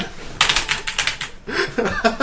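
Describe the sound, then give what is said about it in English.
A mechanical keyboard is hammered hard during a game, giving loud, rapid bursts of clattering clicks that come in quick runs with only brief pauses. “Here's the thing, like, you definitely need a mechanical keyboard, and that's unfortunate because you just, like... Oh, man, I hope it distracts the fuck out of them, too. Like, fuck, he's clicking so hard!”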